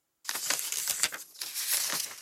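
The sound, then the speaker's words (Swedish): Newspaper articles leafed through by hand: crisp, crinkling paper rustles in a continuous run of soft flips and slides, fairly faint, with no voices. “Vi börjar att bläddra bland artiklarna”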